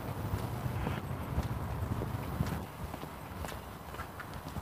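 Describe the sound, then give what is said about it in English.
A person walks in a steady rhythm of clopping, slightly crunchy footsteps that carries on throughout, fairly faint and with no talking. “I'm walking and not talking.”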